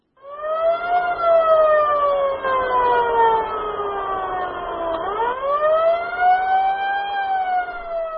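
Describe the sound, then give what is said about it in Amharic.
Ambulance siren as the vehicle rushes people wounded in border clashes between Cameroonian soldiers and armed Central African Republic groups: a loud, continuous wail whose pitch slowly sinks, then jumps back up and levels off. “ይህ አምቡላንስ ሁለቱን ሀገሮች በሚያዋስነው ድንበር ላይ በካሜሩን ወታደሮችና በታጠቁ የማዕከላዊ አፍሪካ ሪፑብሊክ ቡድኖች መካከል የቆሰሉትን ሰዎች ይዞ እየተጣደፈ ነው።”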